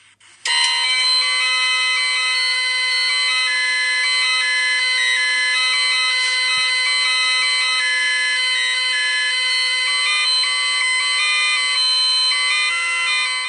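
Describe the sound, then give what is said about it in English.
Chiptune introduction music from the Atari video game E.T., 8-bit and steady: bright square-wave tones hold sustained chords with small stepwise melodic shifts over a faint low pulse, loud and continuous with no talk. “that's the introduction music to E.T., the Atari game, you know, the ones buried in the desert.”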